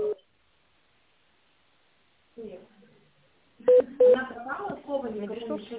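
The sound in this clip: Two short telephone keypad tones sound while dialing an employee's extension on a company phone line. The clear beeps come in quick succession, set between stretches of speech.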